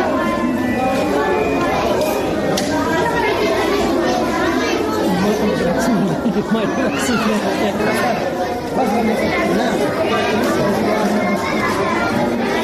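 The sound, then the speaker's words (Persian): Children chatter together in a newly opened library in Nangarhar, built with Japanese help. Many young voices overlap in a continuous, lively babble that runs steadily at an even loudness throughout. “این صدای کودکانی است که در کتابخانه تازه تأسیس شده به همکاری کشور ژاپن در ننگرهار گرد هم آمدند و به خوشحالی کتاب می‌خوانند.”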